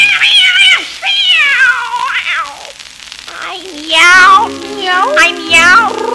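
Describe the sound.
Several loud, drawn-out meows from a cat, each a wavering tone that bends up and down, coming in bursts with short gaps between them.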